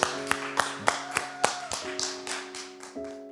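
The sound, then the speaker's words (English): Audience hand claps welcome a guest pastor at a church service: many sharp, evenly spaced claps in a steady rhythm over sustained musical tones. “Let's give them a big hand together today.”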